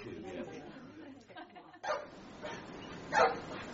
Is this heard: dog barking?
yes